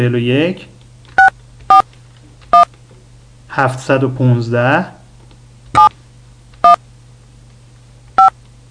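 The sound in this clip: Telephone keypad tones dial a conference room number: six short, sharp beeps at uneven intervals over a low steady hum, with a voice speaking briefly at the start and again midway between the tones.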